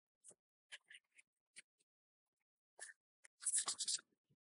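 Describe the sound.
A pen scratches out an entry in a guestbook: a series of short, faint scribbling strokes with pauses between them, then a denser burst of writing near the end.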